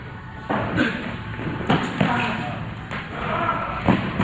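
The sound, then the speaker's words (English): Players' footwork on court during a rally in a championship match: several sharp thumps and scuffs land at irregular intervals over a continuous background murmur. “You can just hear the footwork from both players.”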